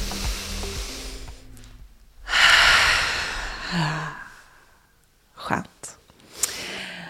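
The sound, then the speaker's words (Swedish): A deep breath taken together by two people at the start of a conversation: a loud, airy inhale follows a few seconds of talk, then quieter breathy sounds and short voiced murmurs. “Jag behöver ta ett djupt andetag. Ska vi ta det tillsammans?”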